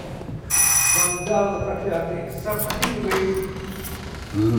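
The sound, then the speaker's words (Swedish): A doorbell rings at a building while someone calls on the caretaker. It is a bright, buzzing ring lasting about a second, followed by noisy shuffling and voices talking. “Jag ska precis ringa på och prata med fastighetsskötaren.”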